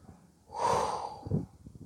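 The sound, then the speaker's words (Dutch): A deep exhale during a relaxation breathing exercise: one soft, breathy rush of air that swells and fades over about a second, with no talk. “En daarna ga je uit je hoofd je lichaam in door uit te ademen.”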